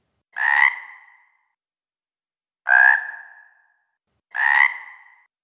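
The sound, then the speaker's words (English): Three croaking calls from a great big bullfrog. Each is a short, raspy burst that trails off, and the calls come about two seconds apart with silence in between. “Until a great big bullfrog came forward.”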